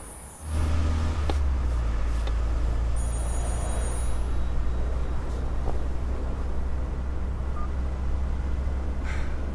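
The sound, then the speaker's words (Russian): Steady low engine drone of a car driving across a dry yellow field scattered with round haystacks, rumbling evenly throughout with no voices. “Машина проезжает поле.”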